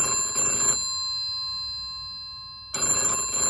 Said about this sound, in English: At 7:20, the telephone at the cafe rang.